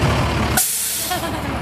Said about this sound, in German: Dann biegt das knallrote Feuerwehrauto um die Ecke.